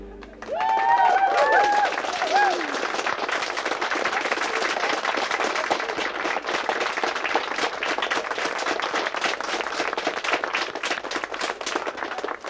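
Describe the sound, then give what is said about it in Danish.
Sustained, even clapping from a dance-pop gala audience after a song, with a few high whoops at the start before the applause settles into a dense, unbroken patter. “Tak skal I altså have. Det er så dejligt, når sådan klapper. Det bliver vi så glade af.”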